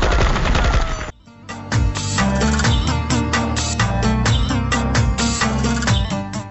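Rapid gunfire from smugglers: dense bursts of many sharp shots that run almost without pause over a steady low rumble, loud throughout after a brief dip near the start.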